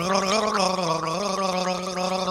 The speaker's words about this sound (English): Marvel at the raw power of this, the greatest of all garglers gargling the hits in this multi-genre spanning album.